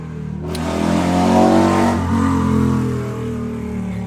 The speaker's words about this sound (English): Fucking douchebag on his bike. God damn it. I got the windows open.